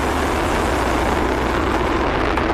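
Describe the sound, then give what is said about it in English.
A SpaceX Falcon Heavy rocket on the NROL 97 mission lifts off from Kennedy Space Center at Cape Canaveral with a loud, dense, unbroken roar that holds steady throughout. “5, 4, 3, 2, 1, ignition and liftoff. Go Falcon, go NROL 97.”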